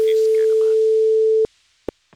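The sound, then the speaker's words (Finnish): A telephone ringback tone sounds while a call is placed to someone: one long, steady, mid-pitched tone that cuts off abruptly, followed by two short clicks. “minäpäs kokeilen nyt soittaa hänelle”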